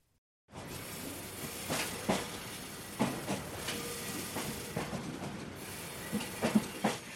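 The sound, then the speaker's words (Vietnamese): A small three-car sightseeing train rolls along its track, giving a steady rumbling hiss broken by a series of irregular clacks and knocks from the wheels and cars, with no voices. “Tàu sang ngắm cảnh đưa khách từ Auraichi quay trở về ga Kuchonli. Chỉ là một đoàn tàu nhỏ có 3 toa”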